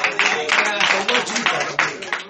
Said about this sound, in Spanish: Madre mía, ese aplauso sí me atribuló. Que yo voy a seguir predicando como quiera. Ese fue un aplauso de tribulación.